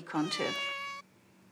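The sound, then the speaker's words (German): A cat gives one clear meow, loud and tonal and lasting about a second, and then it stops abruptly, leaving near silence. “Um unsere Aufmerksamkeit zu gewinnen, wurde die Katze zu einer Expertin für Miauen und Schnurren.”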